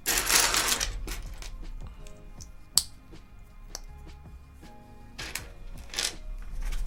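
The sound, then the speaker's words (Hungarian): A plastic bag holding small plastic parts rustles and rattles in a few bursts of crisp crinkling and clicking, loudest at the start and again near the end, with quieter scattered clicks between. “Megint Obika felkapta a fejét a zacskónak a csörgésére, de ez még mindig nem jutalomfalak. Ez még mindig csak kis műanyag alkatrészeket tartalmazó zacskó cica.”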